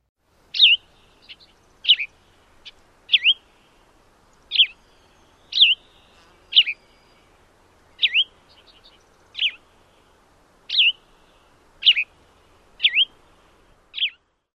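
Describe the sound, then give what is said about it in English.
Gray vireo song: about twelve short, high, sweeping phrases, each a burry slurred note group. They come at a slow, steady rhythm with clear pauses between them, loud over quiet background. “Here is the song of the gray vireo as an example.”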